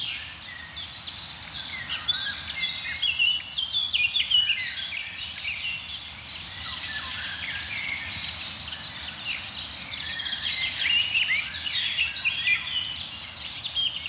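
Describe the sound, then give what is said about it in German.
Blackcaps and other warblers sing with a golden oriole in a dense, continuous chorus of overlapping whistles, trills and chirps that runs unbroken from start to finish. “Die ein oder andere Grasmücke ist auch dabei. Mönchsgrasmücken vor allem jetzt.”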